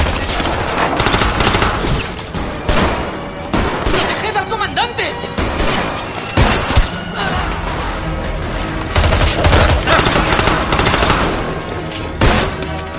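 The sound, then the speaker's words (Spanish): Loud, sustained gunfire from a crossfire inside and outside a bar in a war film: dense, overlapping shots and rapid automatic bursts that continue without pause, with a voice speaking over the shooting. “En el interior y en el exterior del bar continúa el fuego cruzado. Desde el jeep, una soldada infiltrada dispara.”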